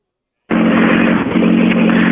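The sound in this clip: Engine drone of a rally car rolling up to a time control at a rally stage. After silence, a steady, loud rumble with a low tone starts abruptly and holds evenly.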